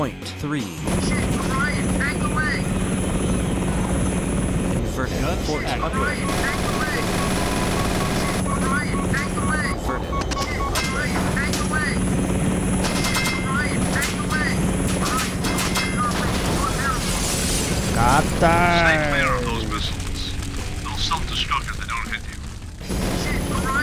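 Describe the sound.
Helicopter rotors drone steadily through a video game, a continuous mechanical hum layered with sustained electronic tones and other game effects, with people talking over it throughout.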